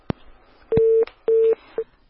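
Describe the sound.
A telephone line tone from a call that fails to connect: two steady, mid-pitched tone bursts of about a third of a second each, then a brief shorter one, with sharp clicks before and between them.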